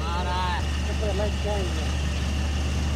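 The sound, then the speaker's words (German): A car engine drones low and steady as another vehicle slowly approaches in the desert near Mount Liebig, with voices over the constant rumble. “Von weitem nähert sich sehr langsam ein weiterer Wagen.”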